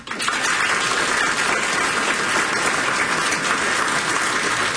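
An audience applauds to welcome an 18-year-old pianist, the clapping dense, loud and unbroken from start to finish.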